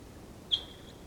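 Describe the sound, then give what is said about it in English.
A single high whistled call from a decoy bird, with other wild birds around, rising sharply then trailing off as a thin, faint tone over a quiet background. “Decoy. There's some other wild birds around. Decoys calling.”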